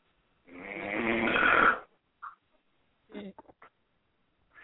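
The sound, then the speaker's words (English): A person snoring in the background: one long, loud, rasping snore with a harsh buzzing texture, followed by a few brief, broken snorting noises separated by quiet gaps. “Who's that snoring in the background?”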